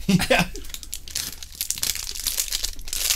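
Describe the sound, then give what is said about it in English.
The wrapper of a cookies-and-cream Quest protein bar crinkles and tears, a continuous bright rustling that crackles on throughout, with a voice heard briefly at the start. “What is that? Quest bar. Oh, like protein bar?”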